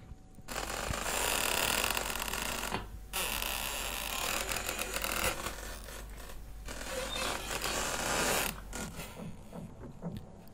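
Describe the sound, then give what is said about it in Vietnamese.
Old door hinges creak as a door slowly opens, producing long, raspy, grinding creaks in a few drawn-out bursts separated by short pauses, fading to fainter rasps at the end. “Về phần ông Ba, từ từ mở cửa bước vào trong nhà. Tiếng bản lề cũ kỹ vang lên đến giận cả người.”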